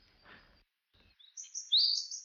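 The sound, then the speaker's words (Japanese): A Japanese tit calls with a few thin, high chirps, quiet at first and then louder, after a brief soft rustle. “これシジュウカラね。”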